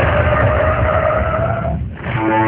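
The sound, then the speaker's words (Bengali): Police cars pulling up and stopping, heard as a loud, steady engine and tire roar with a sustained whine on top. The noise dips briefly near the end, then resumes. “আদর্শ রোডের একদম শেষ বাড়িতে সামনে এসে থামল দুটি পুলিশের গাড়ি।”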